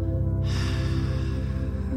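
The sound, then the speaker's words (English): A deep breath is exhaled through the mouth during a guided breathing exercise: a single long, airy exhale begins after a brief pause and lasts to the end, over a steady low drone. “You're going to fill your lungs with oxygen. You're going to hold it for three seconds going to exhale”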